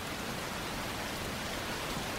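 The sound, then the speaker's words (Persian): Rain falls in a steady, dense hiss with no breaks, fairly faint and heard alone without voices. “آسمونو ببین چارلی براون، کسی توی این بارون نمیاد اینجا.”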